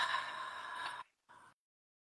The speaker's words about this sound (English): At the top of your breath, inhale again. And a long, long and smooth, a slow exhale.